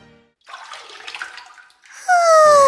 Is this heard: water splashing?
yes